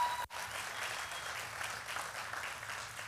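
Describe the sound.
Congregation applause welcoming a preacher during a church service: dense, steady clapping that holds at an even level for about three seconds, broken only by a brief dip near the start.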